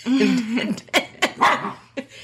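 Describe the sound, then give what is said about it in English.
A pet dog barks in the background at home, opening with a short whine followed by a few sharp, high barks in quick, uneven succession. “so if you guys hear a dog in the background, Shiloh is our dog”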